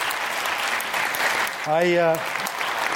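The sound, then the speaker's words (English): Audience applause at a talk about protecting an Arctic wildlife refuge from oil drilling: a dense, steady clatter of many hands that continues throughout, with a brief voiced tone rising out of the crowd noise partway through. “Don't clap right away”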